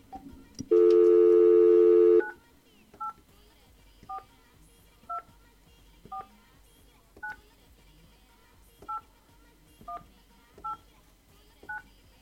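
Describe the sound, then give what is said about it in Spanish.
A telephone number is being dialed: a steady dial tone sounds for about a second and a half, then a long run of short, evenly spaced keypad beeps follows over a quiet background. “vamos a marcarle a ver si está en casa, en el trabajo, a ver qué anda haciendo”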